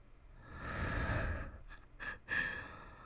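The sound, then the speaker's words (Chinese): Soft breathing sounds close to the microphone: one long, airy breath followed by two shorter puffs. All are quiet and intimate, with no talking. “你呼吸，你呼吸弄得我好痒”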